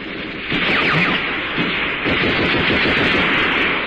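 Artillery cannon fire in a battle, a dense, continuous, loud roar of blasts and low rumble with no clearly separate shots, steady throughout with no talk.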